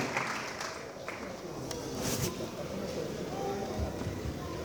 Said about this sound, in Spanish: Lo recibe con fuerte aplauso.